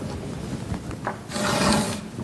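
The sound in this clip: A pencil scratches and rubs across paper while drawing a thick shading boundary line on a cylinder sketch: a few short scratchy strokes, then one louder, longer sustained stroke before it fades.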